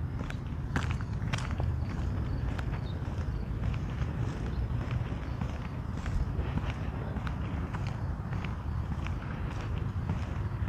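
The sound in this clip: Footsteps on a morning walk outside: a steady run of many dull, even steps carried over a constant low rumbling background.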